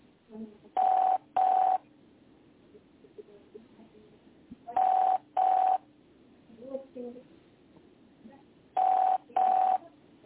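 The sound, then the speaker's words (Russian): Telephone keypad dialing tones: six short, steady beeps in three closely spaced pairs, separated by longer pauses filled with faint low background noise. “Звоню, я звоню, я уже на третий номер звоню.”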